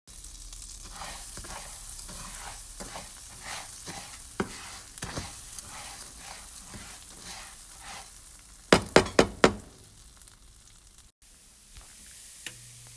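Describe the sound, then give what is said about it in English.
Rice frying in a pan as it turns golden brown, a steady soft sizzle under many regular scrapes of stirring, with a quick cluster of sharper clinks near the end. “So right now we are waiting for our rice to turn golden brown, stirring every about 30-40 seconds.”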